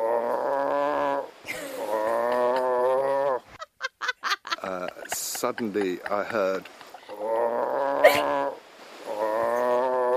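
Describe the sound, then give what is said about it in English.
A man imitates a walrus with long, rough, honking groans, broken in the middle by a run of choppy grunting bursts before the drawn-out honks return. He also speaks briefly. “and then he did an impression of the walrus making noises. I have it here. I have it here for us.”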